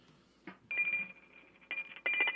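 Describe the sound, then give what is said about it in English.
A bell rings to call people to dinner, sounding as a few bright, high-pitched ringing bursts that start and stop abruptly, with a faint low hum between them. “Oh, she's ringing the dinner bell.”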